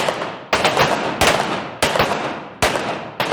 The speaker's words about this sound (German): Duell heißt, die Waffe wird zwischen den Schüssen nicht gesenkt und die Zielscheibe wird gewechselt.